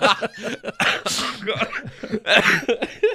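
Raspy, rough coughing that sounds like a longtime smoker's, with several harsh bursts in quick succession, loud and close.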